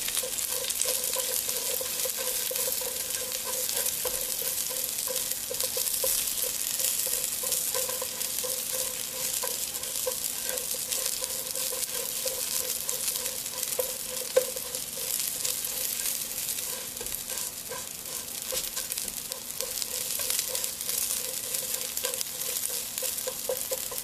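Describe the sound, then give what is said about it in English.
Food puffs up as it fries and sizzles in a pan, a steady crackling hiss that continues evenly for the whole stretch, with no talk. “Okay, they're puffing up, and it's okay if they don't puff up all the way. I mean, you, at least we got it cooking,”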